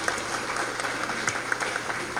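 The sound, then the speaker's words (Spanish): Applause for a community gathering, a steady, fairly quiet crackle of many hands with a few sharper single claps standing out. “Aplausos para la comunidad de Chisnán.”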